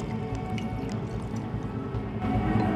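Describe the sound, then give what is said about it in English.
Bubbling golden drink poured into a glass gives a steady, fizzing splash of liquid with small drips, growing slightly louder near the end. “Marcus gets a glass and pours some of the bubbling golden liquid into it.”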